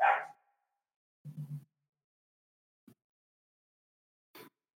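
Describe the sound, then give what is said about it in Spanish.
Pet dogs barking, faint and sparse: a sharp yelp, then a short run of low woofs, then two brief, quieter barks separated by silence. “Y se volvieron locas mis perras, entonces ténganme paciencia para ver qué pasó.”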